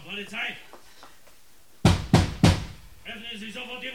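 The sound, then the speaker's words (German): Three heavy, booming blows pound on an apartment door in quick succession, with people talking before and after. “Schläge an Glados Wohnungstür.”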